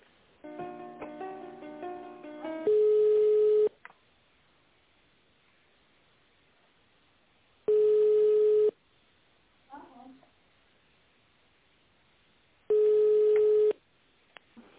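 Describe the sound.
Telephone line tones while connecting a call: three steady, identical beeps about a second long, spaced roughly five seconds apart, after a short melodic tone sequence over a thin, narrow-band line hiss.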